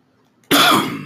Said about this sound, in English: Your cough kind of scared me.